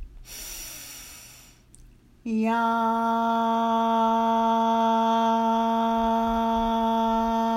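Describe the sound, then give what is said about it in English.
A deep breath drawn in during a guided breathing exercise, a long airy inhale that gradually fades, followed after a short pause by a steady, sustained, evenly pitched tone that holds to the end. “Now let's take another breath in and do yam one more time. Breathe in.”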